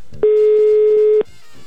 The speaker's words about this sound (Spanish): Estoy intentando marcar. Son las 10:02. Ya entró la llamada